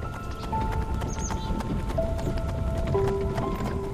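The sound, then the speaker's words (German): Hooves of a horse-drawn carriage clip-clop steadily as it pulls up close to a small house at dusk, a rapid, even run of hoofbeats under faint sustained tones. “Die Kutsche fährt so dicht wie möglich an das Haus heran.”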